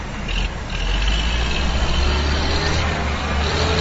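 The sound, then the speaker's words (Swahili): Heavy construction machinery, such as compactors, levelers and loaders, working on a football stadium being rebuilt in Beni: a continuous loud, low diesel engine rumble that drones steadily without breaks. “Mashini za kukanyaga, za kufunyanga, za kuramba na za kupakua zilivamia uwanja wa kabumbu ya 15 Oktobri ya Beni kwa kuanzisha kazi ya kuweka upya na kwa namna ya kisasa uwanja huo.”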